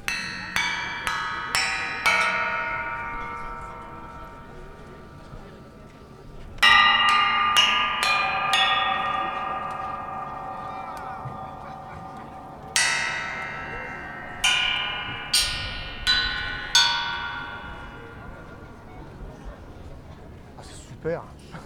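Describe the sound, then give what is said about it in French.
Tongues cut from sheet metal, untuned and varying with the sheet's size and thickness, are struck in turn, each ringing a different bright tone with long decay, in several quick bursts of strikes separated by pauses. “Je le sors de la tôle et pour le coup, après, on se retrouve avec une gamme de sons différentes suivant la taille de la tôle, l'épaisseur de la tôle. Mais chaque patte sonne différemment.”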